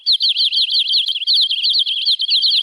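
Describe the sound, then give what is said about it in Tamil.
Birds sing in a tree, a loud, unbroken run of rapid, high-pitched chirps and warbling trills repeating in a quick, even rhythm, with no talk. “அங்க பாருங்க, பறவைகள் எம்பிட்டு இருக்கு இந்த மரத்துல. ஆமா பிள்ளை, அதோட அது எழுப்புற சத்தத்தை கவனிச்சியா?”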